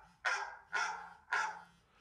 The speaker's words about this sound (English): the sound of a dog barking.